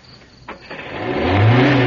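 A car engine with a smashed clutch housing revs up after a couple of clicks, its low, throaty drone swelling louder with pitch climbing through the second half.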